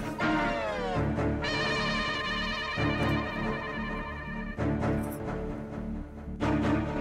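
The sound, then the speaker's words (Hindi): A telephone rings with a melodic electronic ringtone: a loud, steady run of bright, tuneful tones that repeats without a break for about seven seconds, with no voices over it. “घंटी बज रही है।”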